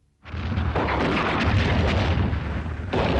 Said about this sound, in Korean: 느닷없이 땅크 포탄이 산 뒤에서 터졌다.